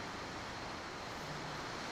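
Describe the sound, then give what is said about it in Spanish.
Heavy rain pours down in a dense, steady hiss, even and unbroken throughout, fairly faint with no voices. “un baldazo de agua, ya tenemos otro. Pero damos gracias a Dios, ¿verdad?, por la lluvia.”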